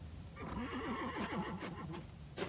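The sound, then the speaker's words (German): Frightened horses neigh beside an overturned carriage: one long, shaking whinny rises and wavers over a low rumble, with a few sharp knocks scattered around it, fairly faint overall. “Die Pferde haben vor dem Kreuz gescheut. Die Kutsche ist umgestürzt.”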